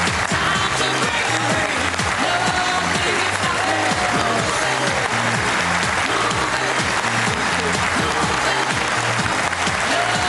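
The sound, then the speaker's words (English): Rapturous applause from a party conference audience welcoming the Prime Minister for her first conference speech. It is loud and unbroken, layered over an upbeat song with a steady pulsing beat. “In her first conference speech as Prime Minister, she was welcomed with rapturous applause”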